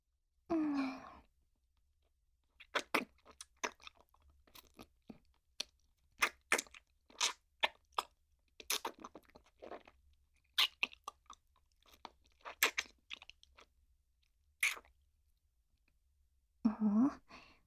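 Hard candy being crunched and chewed, many sharp, dry crackles in irregular bursts, with a soft breathy sigh at the start and another at the end.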